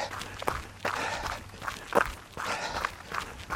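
Running footsteps of a person on an endurance training run, steady repeated footfalls beating out an even rhythm with soft scuffing between strikes.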